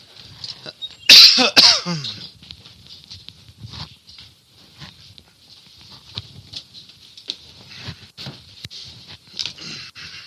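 A man coughs from a tickling throat during an evening church sermon: two sharp, loud coughs close together near the start, then soft scattered rustles and faint throat noises.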